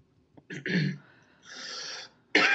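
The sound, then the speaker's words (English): Coughing after aspirating spit: a few rough, breathy bursts with short gaps between them, fairly faint, with the last burst the sharpest. “Excuse me, I aspirated my spit.”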